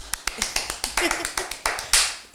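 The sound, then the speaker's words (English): Finger snapping serves as applause to welcome a poet guest, with many crisp, quick snaps at an irregular pace. “Let's do applause.”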